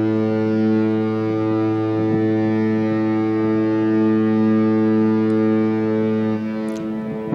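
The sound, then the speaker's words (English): A cruise ship's horn sounds a departure signal in one long, deep, droning blast that holds steady and loud for the whole stretch, rich in layered tones. “And that's the sound of our cruise ship horn signal, letting folks know that we are pulling off.”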